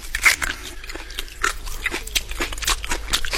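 Crunchy biting and chewing of a raw carrot: many crisp, loud crunches in an uneven rhythm over a constant low hum, with no talk.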